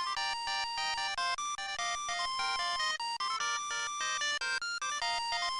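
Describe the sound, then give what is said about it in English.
An electronic ringtone from the international version of the video game Metal Gear Solid plays a quick, repeating melody of bright synthetic tones that hops between pitches, steady and loud throughout with no talk. “In all the international versions, the ringtone sounds like this.”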